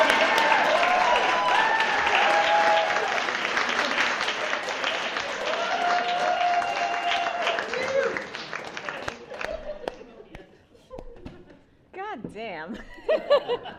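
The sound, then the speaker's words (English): An audience at a live show bursts into applause mixed with chuckles and laughter. The clapping stays strong for about eight seconds, then thins out as a voice begins talking over the last scattered claps. “please put your hands together for Liz Tells Frank at Live at Nerd”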